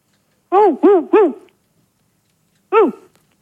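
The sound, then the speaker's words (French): A dog barking over the telephone, thin and band-limited: three quick, loud barks in a row, a pause, then one more bark. “Je crois qu'ils ont un chien, dis-moi. Ils ont un chien.”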